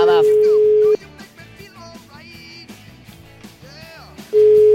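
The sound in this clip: A telephone ringback tone sounds while a call is being placed: two long, steady, mid-pitched beeps, each about a second, separated by a gap of several seconds filled with other background sound.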